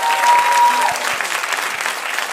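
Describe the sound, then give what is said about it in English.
Applause from a live audience in a crowded room, a dense, loud wash of clapping that runs steadily through the whole stretch without a break. “Clap harder.”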